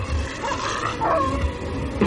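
Dog and werewolf growling and fighting: a continuous, loud stretch of snarling, yipping and whimpering vocalizations that overlap without a break.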